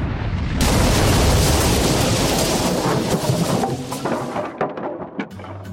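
Cannon fire from a Royal Navy ship bursts out as one loud, booming blast that roars on for a few seconds, then fades into a rumbling, crackling tail.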